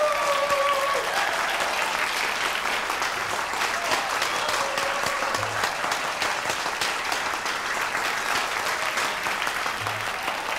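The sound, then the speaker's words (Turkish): Audience applause welcomes a Turkish folk singer onto the stage, a steady, dense clapping that stays even and full throughout without a break. “Sizlerin de yakından tanıdığı gibi yurt dışında, Avrupa'da ses getiren Bozkır'ın, Bozdağ'ın kraliçesi Hava Üç sizlerle efendim, güçlü kuvvetli alkışlarınızla.”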